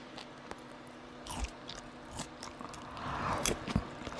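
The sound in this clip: Crunchy biting and chewing of a fibrous, sweet fruit: a few crisp crunches and wet mashing sounds, fairly faint, with no talk.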